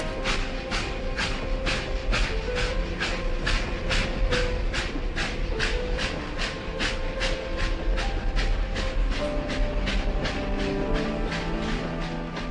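A train passes in a radio station jingle, its wheels beating a steady clickety-clack of many evenly spaced beats over a continuous rumbling hiss, with no voices.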